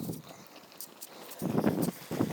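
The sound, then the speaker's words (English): Footsteps of a group of runners passing by, a loose patter of many quick steps that grows louder toward the end, with no talking. “My mistake, it wasn't a school of kids, it was a group of runners.”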